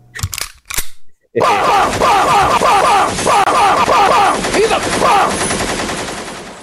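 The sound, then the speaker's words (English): Rapid gunfire sound effect: a few short bursts, then a long continuous rattle of shots lasting several seconds at steady loudness. “Fire the bum guns. Bum!”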